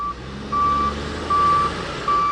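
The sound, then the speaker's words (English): The reversing alarms of heavy equipment such as backhoes clearing a landslide on a highway give evenly spaced, high, steady beeps, the first one cut short, over a constant low engine rumble. “State Department of Transportation workers used backhoes and other heavy equipment to clear the landslide between 6 and 7 Mile Mitkoff Highway throughout the day.”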